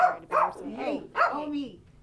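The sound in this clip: A small dog barks in an office, giving a few quick, high yapping barks mixed with whiny, wavering tones in a short burst.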